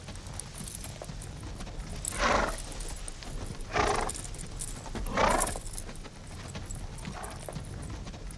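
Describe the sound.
Horse hoofbeats as a rider sets off ahead: a steady clip-clop over a low background noise, with a few louder swells along the way and no voices.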